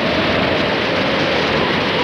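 Rain pelting a beach beside a crashed plane, heard as a dense, unbroken, loud hiss that stays steady throughout, with no voices.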